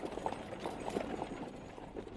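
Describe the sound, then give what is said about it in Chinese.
Hooves clip-clop as a horse-drawn carriage speeds away. A quick, even run of soft knocks sits over a steady low rumble, fairly faint throughout. “等胡管家再回过头来，马车已经飞驰而去。”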